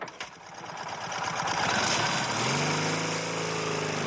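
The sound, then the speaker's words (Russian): A motorcycle engine starts, with a rough, rattling build-up before the motor catches and settles into a steady, buzzing run. “Он подбегает к своему мотоциклу, двигатель сразу заводится.”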